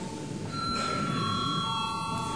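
Electronic bell ringing in a parliament chamber before a vote, a loud, steady ringing made of several layered high tones held throughout, with no voices.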